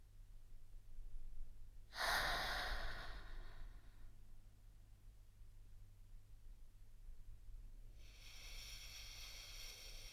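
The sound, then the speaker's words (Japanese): Slow, deep breathing, two long, soft breaths separated by a lengthy quiet pause, very faint and heard alone. “同じようにやってみて。ゆっくりと深呼吸。”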